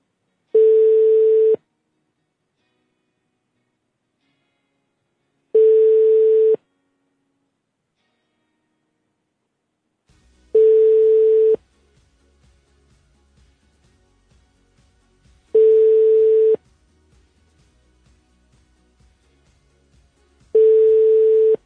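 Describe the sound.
Telephone ringback tone on an unanswered call to Ayman Odeh: five long, steady, mid-pitched beeps at even intervals, with faint low crackle between the later ones.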